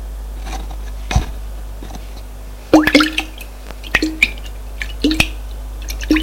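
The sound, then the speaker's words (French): A flask is emptied and refilled with water, heard as a scattered series of small drips, plops and squishy glugs with light clicks, irregular and fairly faint. “Il vide le flacon. Et le remplit d'eau.”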